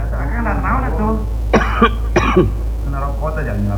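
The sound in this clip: Harsh coughing and throat clearing, a few rough bursts in the middle, with speech before and after.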